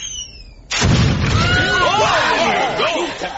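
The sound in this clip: Fiery rocks crash down as explosions in an animated battle. A sudden loud blast gives way to a sustained rumbling roar, with wavering high whistling tones rising and falling over it.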